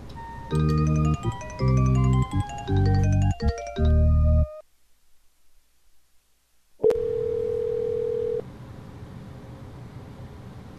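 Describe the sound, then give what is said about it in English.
Telephone call tones: a few bursts of beeping, melodic tones play first, then a pause of near silence. A sharp click follows, and a single loud, steady tone holds for about a second and a half before faint noise remains. “Are you calling my phone number again”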